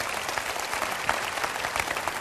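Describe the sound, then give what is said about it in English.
Audience applause fills the room after a speaker thanks the crowd for honouring his long marriage: dense, steady clapping from many hands with no breaks or voices, moderately loud throughout. “Believe me, you're clapping more for Brenda's patience than you are for me.”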